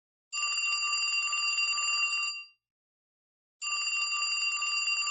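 Telephone ringing on an outgoing call: two long, steady, bright ringing bursts separated by a short silence, the second cut off at the end, with no voices.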